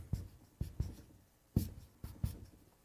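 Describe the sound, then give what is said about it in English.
Writing on a board during a scripture lecture: six short, scratchy strokes in irregular clusters, fairly faint, with no talk. “Told you I shouldn't talk while I was writing those up there.”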